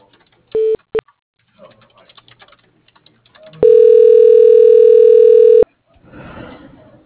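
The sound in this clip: Telephone tones sound as a call is transferred to voicemail: two short beeps, then a steady two-second tone, with light clicks scattered between and faint voice-like murmur at the end.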